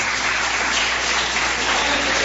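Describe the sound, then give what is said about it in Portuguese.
Church audience clapping in praise of Jesus, a dense, continuous wash of applause at an even level with no individual claps standing out. “Pode se assentar, se assenta e glorifica Jesus com palmas e glória a Deus.”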